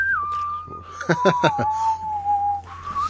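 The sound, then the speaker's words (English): A person whistles a theme tune as one long, steady tone that slides gently lower before lifting at the end. A few brief, noisy bursts break in around the middle. “We'll all dub the Whistler theme.”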